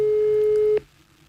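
A single steady telephone tone plays while calling someone back after the call was rejected. It holds for just under a second and then cuts off, leaving only a faint low hum. No one speaks.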